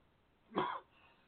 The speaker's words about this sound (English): Sorry, don't mean to cough in everybody's ears here.